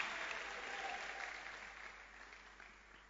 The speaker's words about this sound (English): the Bible, clap for the Bible, just clap.